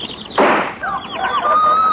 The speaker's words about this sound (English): I've got a gun.